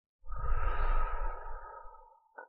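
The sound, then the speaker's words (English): A mother gives one slow, deep exhale to show a small child how to breathe out calmly. The breathy rush swells quickly, holds for about two seconds, then gradually fades and ends in a brief faint sound. “Take a deep breath. And breathe out like this.”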